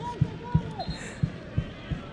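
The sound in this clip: A ball is bounced repeatedly in a studio, making dull, punchy thumps in a fairly steady rhythm.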